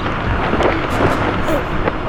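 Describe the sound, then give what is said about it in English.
Strong wind blows across a field during a group jump, a steady, loud, buffeting roar that fills the whole clip, with voices faintly beneath it. “There's too much wind.”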